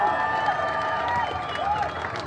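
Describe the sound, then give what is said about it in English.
Crowd applause and cheering for the organisers of a large union rally, a dense, steady roar of clapping and voices that stays loud and continuous throughout. “Lastly, a big round of applause to Justin, Aaron, and the team of the AU.”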